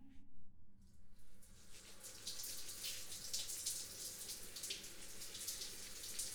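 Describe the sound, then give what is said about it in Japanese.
Hot running water rinsing hair, a steady hiss of flowing water with soft splashing that starts after a brief quieter opening and continues without talk. “それではまずは髪をお湯で流しますね。”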